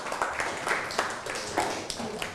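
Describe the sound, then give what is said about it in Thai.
Students in a classroom clap for their classmates, a loose patter of many hands with sharp individual claps popping out unevenly over a moderate, steady bed. “นั่งลงครับปรบมือให้เพื่อน”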